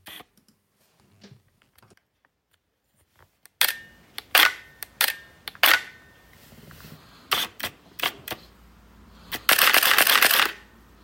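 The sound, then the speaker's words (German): A Nikon F5 single-lens reflex camera fires its shutter in a series of sharp mechanical clicks, some single and some in quick pairs, ending in a rapid motor-driven burst, with faint handling noises before the first shot. “Es ist tatsächlich eine Spiegelreflexkamera.”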